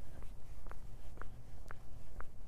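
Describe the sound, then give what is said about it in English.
Footsteps of someone walking on a trail at a local park: five faint, evenly spaced steps at a steady walking pace over a low background hiss. “So I'm out walking again, but I'm not walking up the big hill. I'm actually walking on one of the trails at my local park,”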